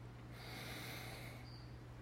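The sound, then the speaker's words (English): A single deep breath drawn in slowly, a soft, airy inhale lasting about a second over a steady low hum, then fading to quiet. “So now let's take a deep breath.”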